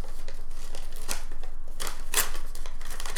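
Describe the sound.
Paper crinkling and tearing as a wrapped package sealed with tape is opened, with a few sharp rips and crisp rustles over a steady low hiss and no talk.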